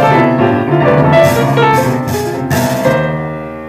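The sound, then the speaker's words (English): Loud, dissonant piano chords are played to evoke sin. Several clashing clusters are struck in turn and ring over one another, with no voices. “Now, on a piano, maybe sin would sound something like this.”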